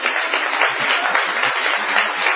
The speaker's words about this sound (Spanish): Podemos decir que vamos a aplaudirlo.